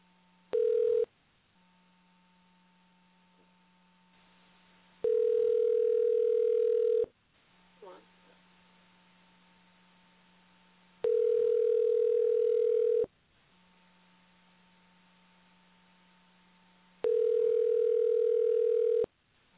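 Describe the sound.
Telephone line tone after dialing: four steady, mid-pitched tone bursts repeating every few seconds, the first one short and the others about two seconds long, with a faint low hum filling the gaps between them.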